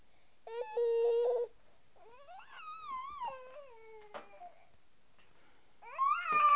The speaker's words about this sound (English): I'm getting kind of tired of this whining. I'm getting kind of tired of this constant whining.